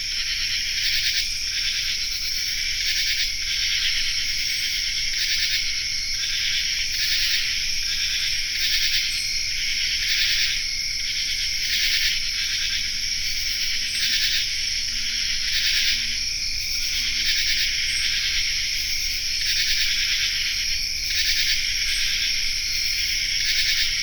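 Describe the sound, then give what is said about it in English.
A common true katydid's raspy song fills an insect chorus on a forested hillside in Land of Lakes, Kentucky. Dense, high, rhythmically pulsing rasps repeat steadily and loudly throughout. “It features the raspy song of the common true katydid”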